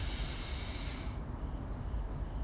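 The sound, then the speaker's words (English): A deep breath drawn in during a guided breathing exercise, heard as a broad airy hiss that is strong for about a second, then thins to softer airflow. “Two more times. Breathe in and out. And our final breath in together.”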